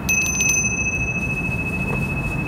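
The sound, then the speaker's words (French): A small hand bell used to summon a housekeeper rings: a quick flurry of bright, high strikes, then a sustained shimmering tone that slowly fades over a steady background hiss. “Maudite clochette.”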